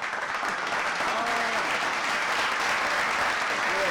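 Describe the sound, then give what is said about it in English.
A round of applause from an audience, clapping that runs steadily and evenly for the whole four seconds with no clear pauses. “Then we're going to give a round of applause.”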